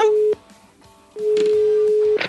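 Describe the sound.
Tone of a telephone call being placed: a steady mid-pitched electronic tone that breaks off briefly and then resumes for about a second, with other faint sounds mixed in.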